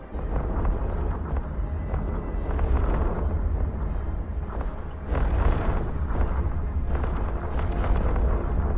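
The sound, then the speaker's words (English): Missile explosions in a video game form a loud, continuous roaring rumble that surges in waves, deep and noisy throughout, with no talk over it. “Missiles! What's the defense against missiles? Is there one? Well, I nearly lost my shields.”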